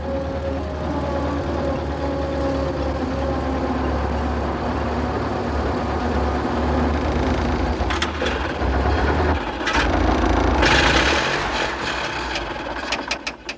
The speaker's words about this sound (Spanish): Unos cuantos elefantes apenas prestan atención al vehículo. Un numeroso rebaño de búfalos mira con curiosidad. El coche pasa entre ellos.